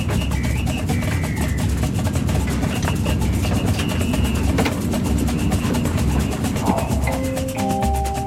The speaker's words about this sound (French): nous vous souhaitons la bienvenue à bord du TGV à destination de Hendaye.